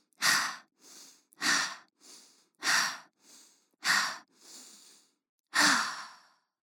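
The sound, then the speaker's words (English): Five slow, deep breaths taken as a calming exercise. Each is a strong, airy breath followed by a softer one, repeated at a steady, unhurried pace with no talk. “I want to try our emojer. Breathe 5 times.”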